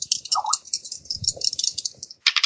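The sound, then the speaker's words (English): Dice rolled during a tabletop role-playing game make a rapid, uneven rattle of sharp clicks and soft knocks, with a brief lull before a final burst of clicking. “I'm going to roll dice.”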